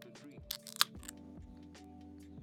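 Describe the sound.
A dented nitro can is opened with a faint crack and then a single sharp pop, followed by quiet hiss and low noise.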